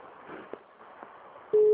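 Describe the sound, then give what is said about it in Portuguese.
An electronic telephone tone from a call that nobody answers. A steady, level tone sets in near the end over a faint, low background hum. “Porque eu tô ligando e ninguém atende.”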